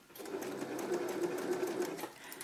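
A sewing machine with a cutting knife, which had stopped stitching properly, runs in a continuous, even whirr of rapid mechanical stitching, steady and fairly faint, with a brief click at the very end.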